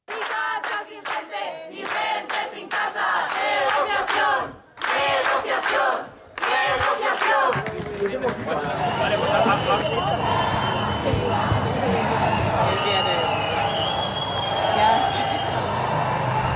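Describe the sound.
Protesters crowd Puerta del Sol in Madrid, demanding that evictions be stopped. A single voice speaks in bursts at first, then a dense mass of chanting and shouting voices roars on steadily.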